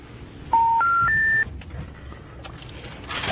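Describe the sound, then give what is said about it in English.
Telephone keypad tones as a phone number is dialed: three steady beeps in quick succession, each a step higher in pitch than the last, followed by quiet low line noise and a faint hiss. “So are you just dialing like the top number in the corner of every page?”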